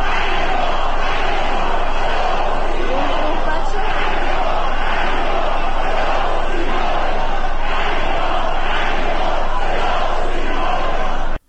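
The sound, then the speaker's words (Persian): Crowd outside a hospital chanting slogans against the state broadcaster after the death of a master singer: a dense, loud roar of many voices with rhythmic swells that continues throughout. “مردمی که مقابل بیمارستان تجمع کرده بودند شعارهای علیه صدا و سیما دادند. این صدا رو بشنوید.”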